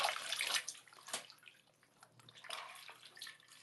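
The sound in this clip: A washcloth is soaked in water and wrung out, giving faint sloshing and trickling in a few soft, irregular bursts with quiet drips between them.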